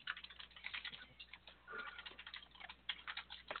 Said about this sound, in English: Good thing I know how to type fast, too.